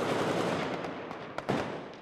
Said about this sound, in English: Hand grenade goes off.